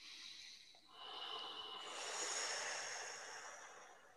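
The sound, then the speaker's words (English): A single long breath taken during a guided breathing and healing exercise: a soft, steady rush of air that swells after a brief pause and holds for several seconds, with no talk. “Take a breath.”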